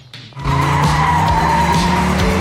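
A car races ahead at full speed. After a quieter start, a loud sustained engine roar with screeching tire squeal kicks in abruptly and holds steady throughout.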